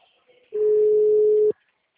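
A telephone tone after a dropped call: one steady, mid-pitched beep that holds for about a second and then cuts off abruptly, with a few faint sounds before it and near silence after.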